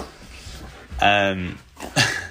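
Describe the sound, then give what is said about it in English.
Dogs whining in the background of a family home, with a drawn-out harmonic cry near the middle and a shorter, fainter cry toward the end, set under a low, steady murmur. “you will hear the dogs in the background. So, they're also part of the family, obviously.”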